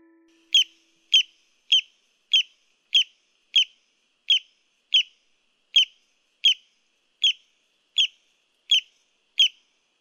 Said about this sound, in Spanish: es el sonido de un pajarito que vive en la República Dominicana y se llama el barrancolí.